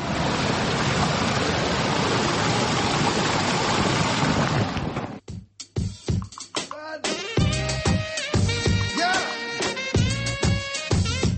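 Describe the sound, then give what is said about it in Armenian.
An irrigation-fed stream in Lovers' Park, Yerevan, makes a steady, loud, broad rush of flowing water for about five seconds, then cuts off abruptly into other sounds. “Երևանի Սիրահարների այգին, որ վերաբացվել է Պողոսյան ընտանիքի միջոցներով, իր առաջին ամառն է վայելում, ոռոգման համակարգը գործում է, այգում նորից առուն է երգում։”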